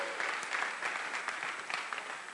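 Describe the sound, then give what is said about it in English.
An audience clapping in praise of the Lord: a dense, steady patter of many hands at a fairly even level, with a few louder claps standing out. “Why don't we give the Lord a clap for that?”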